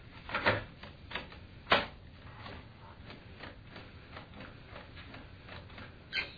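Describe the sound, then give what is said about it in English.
A cassette audio tape is handled and turned over to its other side, giving a few sharp plastic clacks and clicks against a steady background hiss. “Okay, I'll have to, we'll have to change our side of the tape here.”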